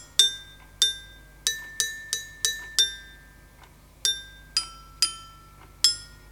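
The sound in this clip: Glockenspiel notes struck one at a time as a child practices songs on a new instrument: bright, ringing metallic tones in a simple melody, a quick run of notes, a short pause, then more notes, with no voices.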